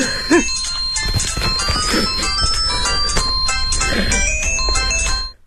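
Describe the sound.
Phone ringtone playing a bright, melodic electronic tone pattern that repeats steadily at a fairly loud level, then cuts off abruptly just before the end.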